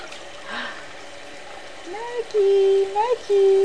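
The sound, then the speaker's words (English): Tap water running in a steady, soft hiss while a child washes her hands, with a few high, sustained vocal sounds rising over the flow near the end. “Wash your hands. One hand. On your other hand.”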